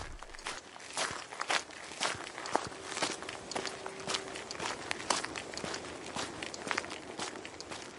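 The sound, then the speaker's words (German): Footsteps outdoors while walking a borrowed dog: many steady, crisp steps in an even walking rhythm, each a short crunchy tap, continuing throughout with no talking. “ich melde mich von einer Gassi-Runde mit dem Leihhund”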